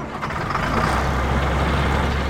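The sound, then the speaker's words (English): Engine of a bucket truck running during an osprey rescue, a loud, steady low rumble that drones on without a break, no talking. “So that's our cue to send Rob up in the bucket truck to retrieve the trapped osprey.”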